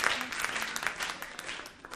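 Applause from an audience: a dense, steady patter of many hands clapping, fairly loud and continuous for about two seconds without a clear break.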